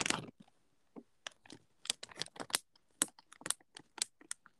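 Crunchy chewing of biscuits of unknown age: many sharp, dry crunches in irregular bursts with brief pauses between, fairly quiet, with no talking.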